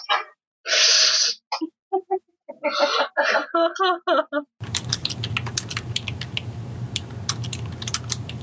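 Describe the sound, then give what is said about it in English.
Many rapid keystrokes clatter on a computer keyboard over a low hum. They follow a stretch of loud, broken voice sounds. “Oh no, he's typing something.”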